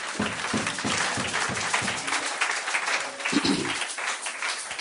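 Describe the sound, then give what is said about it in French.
Applause from an audience at a church service, right after the word of God is acclaimed. The clapping is dense and continuous, holding a steady level for the whole stretch. “Quelqu'un peut acclamer la parole de Dieu.”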